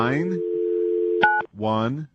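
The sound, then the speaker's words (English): A telephone number being dialed: a steady dial tone hums, then one short keypad tone sounds before it cuts off, with people talking at the start and end. “Give me a random phone number and I'll dial it.”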